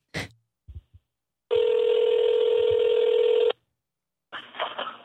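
A telephone call rings through to voicemail: a few brief clicks, then a single steady ring tone lasting about two seconds, a pause, and a short noisy burst.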